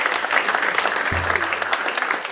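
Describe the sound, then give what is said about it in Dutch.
Audience applause at a writing competition prize ceremony as a winning story's author is honoured: thick, continuous clapping at a steady, fairly loud level, with a brief low thump partway through. “Een applaus voor Ellie Schepers-Kostjens.”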